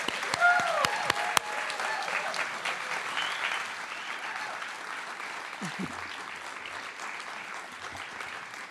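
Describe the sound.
An audience at a WHYY event in Philadelphia applauds to welcome a guest. A brief voice comes first, then dense, steady clapping slowly eases toward the end.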